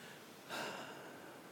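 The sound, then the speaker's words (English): A single quick breath drawn in, a short faint hiss of air that swells and fades within a fraction of a second, with quiet background before and after and no talk. “That was a quick breath, by the way.”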